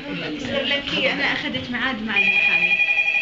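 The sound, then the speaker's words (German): A telephone rings at a women's union emergency hotline in Jordan. A voice talks first, then a bright, high electronic ring starts and carries on steadily, pulsing slightly, to the end. “In der Notrufzentrale der Jordanischen Frauenunion. Eine Frau ruft an und bittet um Hilfe.”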